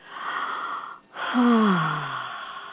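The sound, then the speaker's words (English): A deep belly breath, long and breathy, broken by a brief pause and followed by another breath with a wheezy tone that falls in pitch before slowly fading, with no talking. “take a deep belly breath.”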